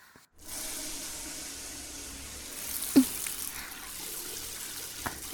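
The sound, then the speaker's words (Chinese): Water rinses soap foam off a person in a steady, soft hiss of spray. It starts after a brief silence and runs evenly, broken by a couple of small knocks. “好了，给主人冲洗掉泡沫吧。”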